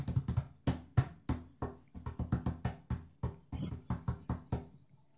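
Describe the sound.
Hands drumming a roll on a hard surface for a giveaway draw: many quick knocking taps in an uneven rhythm, fairly faint, trailing off at the end.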